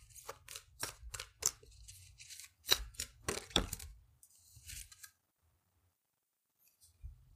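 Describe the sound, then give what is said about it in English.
An oracle card deck is shuffled and a card drawn, giving many quick, crisp flicks and taps for several seconds. Near silence follows, with a faint soft sound at the very end. “Before I start spinning in circles, I would like to just pull one more card for you guys. It's from my Gateway Oracle deck.”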